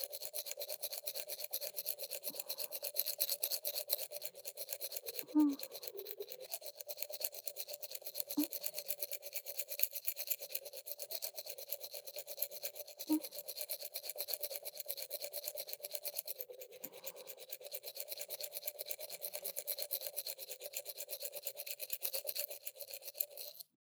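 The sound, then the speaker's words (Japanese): A toothbrush scrubs someone's teeth at night, a fast, steady rasping stroke that runs the whole length without pause, marked by a few brief soft bumps. “こうやって、あなたの歯を私が磨くようになったのって、いつからでしたっけ？”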